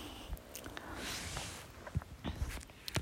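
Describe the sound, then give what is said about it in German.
A blanket rustles as cold feet shift underneath it, giving soft, irregular fabric brushing and scraping with a few sharper crinkly bursts and a denser swell of rustle early on. “ich habe schnell mit meinen Füßen unter die Decke müssen und jetzt kräschelt es wahrscheinlich ein bisschen”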